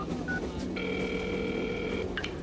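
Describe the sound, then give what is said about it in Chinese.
Telephone tones sound faintly over a low background hum: a short beep, then a steady electronic tone lasting over a second, then another brief beep. “那你还不赶紧打电话呀？”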